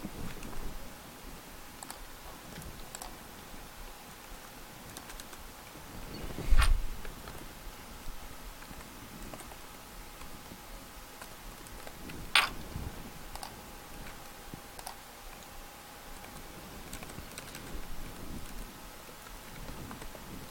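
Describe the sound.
Keystrokes on a computer keyboard as a text command is typed: faint, sparse clicks scattered over a long stretch, with a couple of louder taps standing out.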